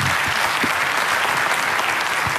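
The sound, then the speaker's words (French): Audience applause greeting a man at the start of a tribute segment: dense, continuous clapping from many hands, loud and steady for the whole stretch with no voices over it. “Bon courage. Christophe, applaudissements pour Christophe.”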